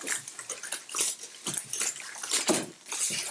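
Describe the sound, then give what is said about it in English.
Foil crinkles and crackles as a restaurant burrito is unwrapped, a fairly loud, irregular rustle of sharp bursts that runs unbroken for about three seconds with no voices. “So I've got the Moe's burrito on my plate. Okay, and I've got the Chipotle on mine. And just unwrapping.”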